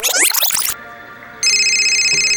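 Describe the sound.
An electronic telephone ringtone for a call coming in late, a steady, bright, high-pitched tone that starts suddenly and holds, following a short burst of loud, harsh noise and a quieter gap.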